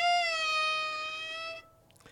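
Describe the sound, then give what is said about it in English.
One drawn-out cat meow, a clear, steady tonal cry that falls slightly in pitch and lasts about one and a half seconds, heard alone without talk. “A cat? He got a cat.”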